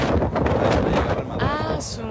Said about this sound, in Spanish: Espérate que pase el viento